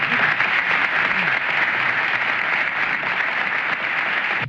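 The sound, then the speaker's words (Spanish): An audience applauds a music group at an evening concert tribute, with steady, dense clapping that stays loud throughout. “Para ustedes, para ellos pido un voto de aplauso.”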